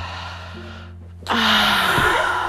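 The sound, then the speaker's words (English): A deep breath drawn in: a sudden, loud, airy rush that starts partway through and holds steady to the end, over a faint low hum. “Can everyone take a deep breath?”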